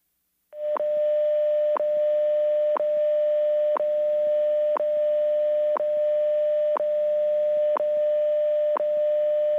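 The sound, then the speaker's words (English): A shortwave time signal station heard over a telephone line: a steady, unbroken tone marked by sharp clock ticks once per second, nine in all, over a faint hum. “I'm calling WWV right now. I can hear what they sound like over the air.”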